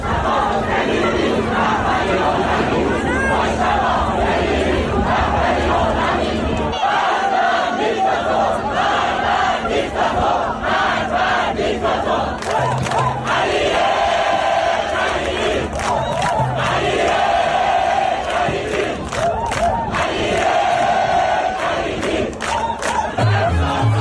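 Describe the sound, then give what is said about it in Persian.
A crowd of spectators chanting slogans after a match in Dubai, loud, dense massed shouting that carries on without letup across the whole stretch. “تماشاگران هم بعد از مسابقه به جای شعارهای ورزشی در دبی اینجوری شعار دادن:”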